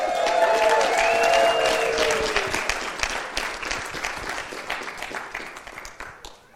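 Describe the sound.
Loud applause from a church audience welcoming a guest speaker to the front, a dense wash of clapping that holds steady for about two seconds, then slowly thins and fades.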